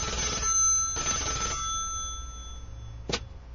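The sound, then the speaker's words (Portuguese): A telephone rings on an outgoing call to a church: two loud, bright ringing bursts, then a short sharp click near the end, with no voices. “deixa eu pegar aqui o telefone. Vamos ligar aqui pra igreja.”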